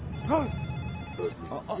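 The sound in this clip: A mobile phone rings with a short melodic tone, followed by a few fainter tonal notes, while a voice speaks briefly.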